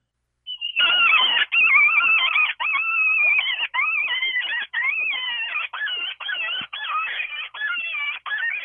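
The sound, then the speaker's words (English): A hand-blown bite-down predator call gives harsh, high, wailing squalls that are blown almost continuously in many loud bursts, with only short breaks between them and no voices. “It's this sound right here. I'll let you listen to it. By the way, it's a bite down call again.”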